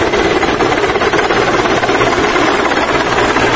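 A helicopter engine gives a steady, loud, dense whirring roar that runs without pause and with no voices.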